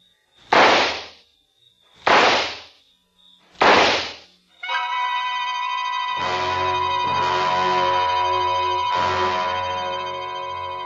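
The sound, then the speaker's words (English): Pistol gunshots: three sharp, loud bangs spaced evenly apart, followed by a sustained ringing, tonal drone with soft pulsing swells. “Then I opened my purse, took out the gun, aimed very carefully at a spot just in the center of his left shoulder blade, and pulled the trigger four times.”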